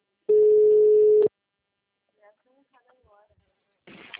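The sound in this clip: Outgoing telephone call ringing, a single steady mid-pitched ringback tone lasting about a second, then near silence with faint brief murmurs and a short noisy burst at the close.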